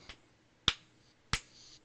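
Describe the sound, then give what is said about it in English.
Slow, deliberate hand claps: a faint one followed by two sharp, loud claps spaced about two-thirds of a second apart, each ringing out briefly with nothing else around them. “Why so serious? Joker clapping in his cell.”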